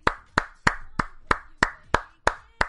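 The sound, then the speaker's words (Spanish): Applause for a magazine's subscribers in the form of nine steady hand claps from one person. Each clap is a crisp, sharp slap with a short ring, evenly spaced and alone, with no talk. “un aplauso de mi parte y obviamente de todo el equipo de Dolmen”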